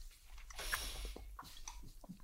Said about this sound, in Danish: Nu er jeg i gang med at gumle endeskiver.